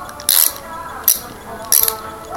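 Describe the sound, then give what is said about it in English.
A socket wrench ratchets on a bolt under a wheelchair seat, giving three short bursts of sharp metallic clicking separated by quieter pauses. “I'm going to attempt to loosen this bolt on the underside of the chair and use a socket wrench”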